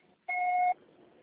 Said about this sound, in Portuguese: Deixe o recado após o sinal que eu entrarei em contato.